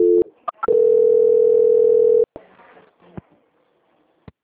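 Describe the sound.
Telephone line tones during a call transfer: a few brief beeps, then a steady single-pitch tone held for about one and a half seconds, followed by faint clicks and a last short blip.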